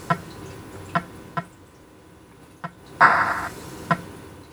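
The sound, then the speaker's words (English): Electronic blips of a ball bouncing off the paddle and knocking bricks loose in the video game Breakout: a few short, sparse ticks at a steady pitch, with one longer, brighter tone near the middle, faint over a low background hum. “You've got a paddle with a ball bouncing around. You have to hit the ball with the paddle and break pieces off of the multicolored layers up on the ceiling.”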